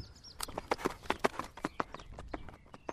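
Hoofbeats of an Icelandic horse galloping: many quick, irregular thudding beats fall in rhythmic clusters, fairly faint over a low background.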